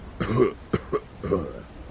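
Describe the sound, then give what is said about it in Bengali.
A few soft coughs and throat-clearing sounds come from behind the narrator: short, muffled bursts spaced unevenly over about two seconds, quiet and without speech. “ঠিক এই সময় আমার পিছনে মৃদু কাশির শব্দ হল”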